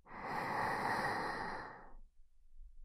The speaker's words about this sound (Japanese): 吐いて、また大きく息を吸って、